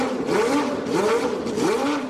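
Formula 1 race car engines rev in quick, repeated whining sweeps, the pitch climbing and dropping again in a steady cycle, loud and unbroken, with no voices.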